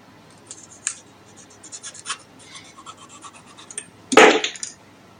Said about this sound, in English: Lift it up so that you cut from the top. You didn't destroy. Cut it open clearly so that.